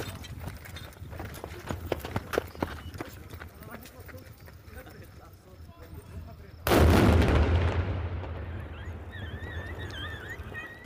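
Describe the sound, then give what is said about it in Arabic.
A single heavy blast from a controlled detonation of leftover war explosives in Sahnaya, Rif Dimashq, bursts in suddenly after a stretch of low background noise and rolls off in a long rumbling decay lasting several seconds. “أوضح مصدر أمني أن الانفجار في صحنايا ناتج عن تفجير الجهات المختصة لمخلفات حرب كانت في المنطقة.”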